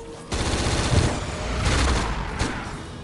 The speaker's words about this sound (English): They use actual weapons and real bullets. Well, blanks, I should say.